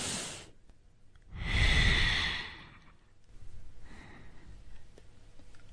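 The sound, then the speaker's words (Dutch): A deep breath drawn in through the nose during a guided breathing exercise: one long, loud, airy inhalation, followed by softer, quieter breathing. “Adem eens heel diep in je neus.”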